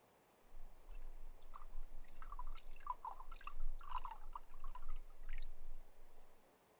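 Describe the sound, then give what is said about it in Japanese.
Tea pours into a teacup as a soft liquid trickle broken by several splashy drips, starting after a brief silence, running for several seconds, then fading out. “うわあ、すごい勢いでティーカップを突き出したの。おかわりか。よいよい、慌てるでない、いっぱいあるからの。ほれ、また注ぐぞ。”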